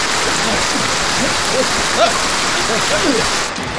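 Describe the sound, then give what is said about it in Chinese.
Heavy rain falls in a dense, steady hiss that runs through the whole stretch, with faint voices briefly audible underneath. “刚才第一天就让你赶上下雨了”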